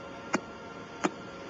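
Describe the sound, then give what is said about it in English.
Two sharp, isolated clicks from pulsar signals picked up by a radio telescope, spaced well apart over a steady background hiss. “These clicks are produced by pulsars, for example, recorded by Jodrell Bank.”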